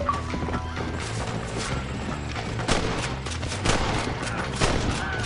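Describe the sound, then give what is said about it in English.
A few sharp gunshots ring out in an Xbox video game, spaced over several seconds above a constant bed of game sound. Hoofbeat-like clopping runs underneath. “they're chasing him all the way back to Armadillo. And, now you're being shot.”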